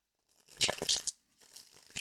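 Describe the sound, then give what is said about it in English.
A tarot card is drawn from a deck: papery rustling, snapping and sliding in two bursts, the first louder and the second softer. “let's pull a tarot card for this first portion of Puharich's life and see what we get.”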